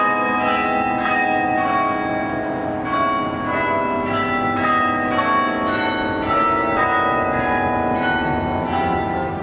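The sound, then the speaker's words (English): Cathedral bells in a town in County Cork, Ireland, play a hymn tune. Many struck notes follow one another in a steady melodic sequence, each ringing on with long overlapping resonance and no voices. “around the Irish town of Cove in County Cork in Ireland are the bells of St. Colman's Cathedral, playing Hail Glorious St. Patrick.”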